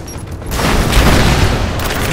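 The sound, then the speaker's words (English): Explosion of a lit explosive charge in a video game: a loud, low boom bursts in after half a second and rolls on as dense, sustained rumbling noise to the end, with no talking. “Light it! Go! Fire in the hole!”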